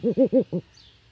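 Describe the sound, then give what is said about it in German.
Deep hoots from a captive Eurasian eagle-owl: four short, rounded, harmonic calls. The first three come in a steady, evenly spaced run, and a slightly weaker fourth follows after a brief pause before quiet. “Das ist ein europäischer Uhu. Das ist die größte Eulenart, die es gibt.”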